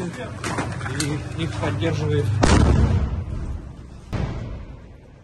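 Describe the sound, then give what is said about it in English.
Cannon fire from Russian T-90 tanks shooting at Ukrainian positions on a city's outskirts: two heavy blasts over steady background noise. The first is a long, rumbling boom and the second is sharper and shorter. “Like the Russians have now brought T-90s into the center of the city. Well, I'm going to say the center, but they've now entered the outskirts of the city, and they're actually firing on Ukrainian positions.”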